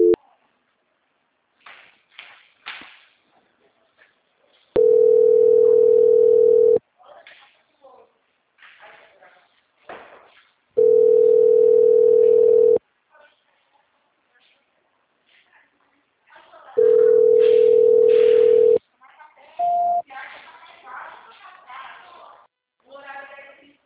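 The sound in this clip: Telephone tone during a call transfer: three long, steady, mid-pitched beeps of about two seconds each, evenly spaced. Faint voices and scattered small sounds fill the gaps between them.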